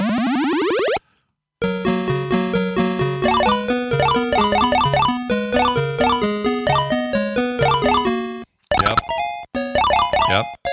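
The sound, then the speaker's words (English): Electronic beeping sound effects and music from the Frogger arcade video game: a quick sweeping tone opens, then after a brief silence comes a bouncy, rapid square-wave melody of repeated notes, ending in broken, jumbled bursts of bleeps. “You hear that? That's a bunch of successful frogging. That's how you know you're successful at Frogger, if you hear all this noise.”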